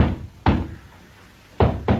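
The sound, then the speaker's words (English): Three knocks land on a door: a single loud rap, about a second of quiet, then two quick raps close together. No voices are heard. “Who's that knocking at my door?”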